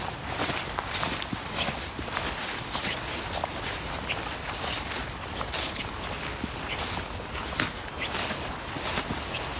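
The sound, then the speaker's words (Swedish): Footsteps of walkers on a small unofficial path beside ponds, a dense, continuous scuffing and crunching with a steady rustle underneath and no clear gaps between steps. “Nu går vi bort mot svarthörnarna. Mm. Nu ska vi gå in på den här lite inofficiella stigen.”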